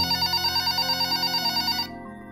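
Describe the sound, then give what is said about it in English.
A hotel-room telephone rings with a rapid, warbling electronic trill, bright and steady, before cutting off abruptly near the end. “Sherry Wong was asleep in her hotel room when the phone rang.”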